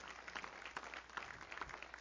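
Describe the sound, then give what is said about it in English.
Faint clapping from a church audience during a sermon, a soft patter of hands with a few sharper claps standing out at uneven intervals. “Everybody say, give him one more good clap off. Come on, give him a great clap.”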